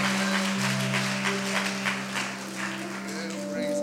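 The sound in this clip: A church audience at Abundant Life Center applauds to welcome Pastor Sullivan. Steady clapping runs under sustained keyboard or organ tones that hold throughout.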